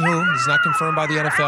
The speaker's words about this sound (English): That's the sound of a coyote.